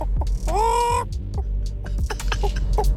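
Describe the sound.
A person imitates a chicken clucking, with short clipped clucks around a drawn-out, nasal squawk, all fairly loud over a low background hum.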